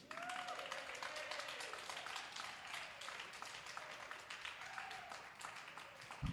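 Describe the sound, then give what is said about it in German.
Audience applause at a poetry slam as a performer is called to the stage: quiet, continuous clapping with a few voices rising above it, ending in a brief thump. “Riesengroßen Applaus für Mriri.”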